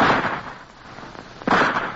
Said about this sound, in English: We're going to start shooting through that opening. Oh, it's too narrow. We can't hit him. I'm trying it anyway.